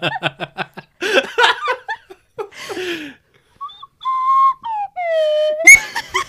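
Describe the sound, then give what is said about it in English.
An inexperienced player blows a whistle, producing a few wavering tones that step downward in pitch, preceded by bursts of laughter. “Made obvious by the fact that you tried to suck in and play the whistle just now.”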